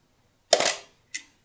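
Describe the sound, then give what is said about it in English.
A Canon EOS R5 camera shutter fires twice: a crisp, longer first click and a shorter, quieter second click a little over half a second later, alone in the quiet. “Okay, but does the EOS R5 sound like this?”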